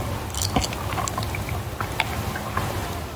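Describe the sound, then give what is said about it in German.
Wet gulping and swallowing of a big mouthful of Hiddensee beer, brewed on Rügen, heard as a few soft, squishy mouth sounds over a constant low background. “Das war aber ein großer Schluck.”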